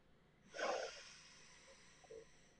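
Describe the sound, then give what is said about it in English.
A deep inhalation through the nose during a guided breathing exercise: one strong, airy intake that swells quickly, then tapers into a faint, steady breath. No one speaks. “So we'll breathe in through our nose”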